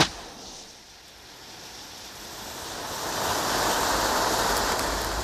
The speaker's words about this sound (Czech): Tak mi aspoň podpál dříví v kamnech, to umíš?